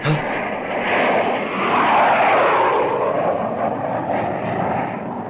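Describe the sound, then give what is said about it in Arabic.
Engine roar of an enemy airplane flying overhead: a loud, broad drone swells to a peak near the middle, then slowly eases while staying strong to the end. “انبطحا أرضا، انبطحا أرضا، هذه طائرة للعدو دخلت علينا.”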